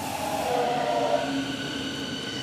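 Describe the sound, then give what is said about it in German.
A Berlin S-Bahn Ringbahn S41 train arrives at a station, a steady, loud rail rumble with a sustained mechanical whine and hum throughout, and no voices. “Gut, da kommt der Zug. S41.”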